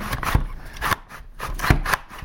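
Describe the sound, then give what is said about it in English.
Crisp swishing cuts as food is fed through the chute of a bladed slicer, a few sharp rasping strokes at an uneven rhythm, one or two landing with a dull low thud, with no voices heard. “And she is slicing up. How many you got sliced? I've got two sliced up right now.”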